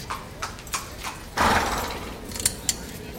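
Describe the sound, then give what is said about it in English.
Horses being mounted by their riders, with several sharp hoof clops and clicks over a steady rough background and one louder shuffling burst midway. “Riders, go to your horses. Put your riders up, please.”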